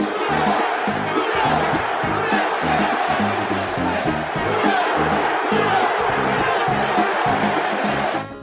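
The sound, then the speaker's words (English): Football fans shout the Who Dat chant, a loud crowd roaring in a steady, pulsing rhythm that stays constant throughout before dropping away at the very end. “What is that when you jump around and carry on and do the who dat stuff? The who dat, you know, that's really kind of a fan. You know, that's our chant.”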